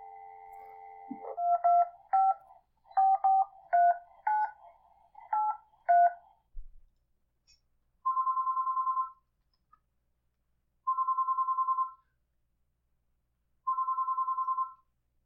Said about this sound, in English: Okay, let's see if we can get him back on the phone.